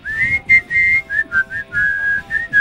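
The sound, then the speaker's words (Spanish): A person whistles a tune, a bright run of clear, sustained notes with slight shifts in pitch and short gaps between phrases, heard alone. “Usted siga silbando que me gusta como acompaña.”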